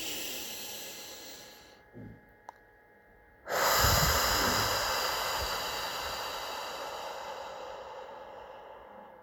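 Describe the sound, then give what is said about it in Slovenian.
A deep breath drawn in through the nose during a guided breathing exercise: a long, airy hiss that begins abruptly after a quiet pause and slowly fades over several seconds. “In tretjič globoko dih skozi nos.”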